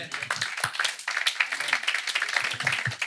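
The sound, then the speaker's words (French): A church audience claps in acclaim during a sermon, a fairly faint patter of many hands with sharper individual claps poking through, continuing throughout. “Est-ce qu'on peut acclamer ce Dieu-là?”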